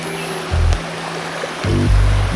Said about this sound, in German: Wir driften jetzt durch den verwunschenen Klosterwald. Immer wieder Stromschnellen. Da sind ganz schön gefährliche Gesteinsbrocken im Wasser.